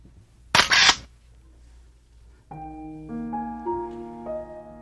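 A camera shutter fires once, a short sharp burst, followed by soft, sustained tones that step upward.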